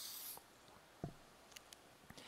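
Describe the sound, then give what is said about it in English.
A green marker drawing on a board makes faint, brief squeaks and scratchy strokes, a few short taps scattered over a quiet background. “let me take this green marker and draw what represents the world.”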